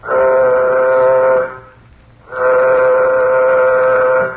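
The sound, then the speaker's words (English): A spaceship warning signal sounds before flight: two long, steady, buzzing horn-like blasts at a constant pitch, loud and alone, separated by a short pause. “Well, gentlemen, the moment has arrived. Sound warning signal. Sound warning signal.”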